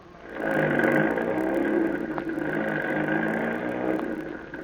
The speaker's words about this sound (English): Get on that truck. And don't swing that trailer on the curves.